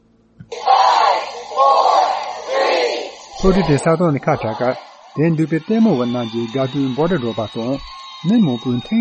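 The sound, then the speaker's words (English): A crowd erupts in loud cheers and shrieks at a Crew Dragon launch, a raised burst lasting a few seconds. A person then speaks over quieter background sound. “You can hear everybody erupting, and it gave everyone who was here hope.”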